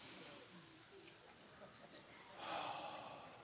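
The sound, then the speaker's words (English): A church audience takes a deep breath together, a soft, airy breathing sound that swells into a broader rush near the end, faint throughout. “Take a deep breath. Church, I want to hear you breathe.”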